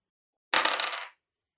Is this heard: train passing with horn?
no

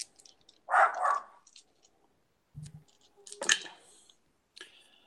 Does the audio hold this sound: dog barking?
yes

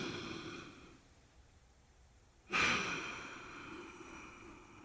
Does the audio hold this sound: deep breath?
yes

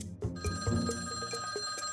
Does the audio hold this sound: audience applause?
no

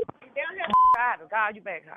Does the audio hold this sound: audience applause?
no

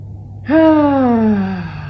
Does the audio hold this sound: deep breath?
yes

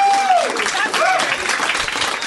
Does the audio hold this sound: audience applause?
yes

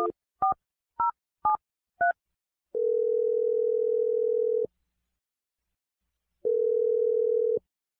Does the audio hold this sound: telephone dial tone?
yes

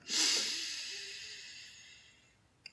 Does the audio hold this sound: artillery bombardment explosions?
no

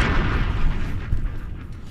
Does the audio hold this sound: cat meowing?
no

